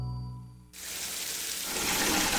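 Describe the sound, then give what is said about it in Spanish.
Hot water runs from a tap into a bucket. It begins abruptly as a rushing hiss that builds and grows louder as the flow continues. “Hoy sí puse una cubeta mientras salía el agua caliente para utilizarla después y me bañé en menos de 5 minutos.”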